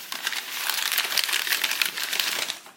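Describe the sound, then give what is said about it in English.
Wrapping paper crinkles and rustles as a present is unwrapped, a dense, continuous crackle that holds steady for nearly three seconds before trailing off. “Well, let's see. Let's let's unwrap something else here.”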